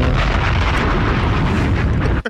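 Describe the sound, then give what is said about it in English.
A bomb explosion sound effect: a loud, sustained blast and rumble that lasts about two seconds, then cuts off abruptly into silence. “Bombs!”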